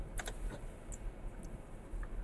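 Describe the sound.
Typing on a computer keyboard: faint, sparse key clicks scattered irregularly over a steady low background hum.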